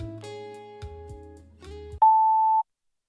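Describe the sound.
A voicemail tone signals the start of a message: a few low, harmonic tones sound in sequence, then a single steady, high-pitched beep holds for about half a second before silence.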